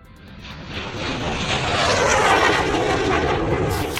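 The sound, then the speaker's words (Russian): An airplane engine drones as a broad, continuous roar. It swells louder over the first two seconds, then holds steady, with no voices. “Самолет гудит. У-у-у.”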